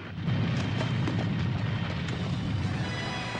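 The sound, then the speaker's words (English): A cavern collapses in an explosion of fire and lava, heard as a sustained, loud, dense roaring rumble that stays unbroken throughout, with faint crackles scattered across it. “Just as they make it inside, the cavern behind them is destroyed in a cataclysm of fire and smoke.”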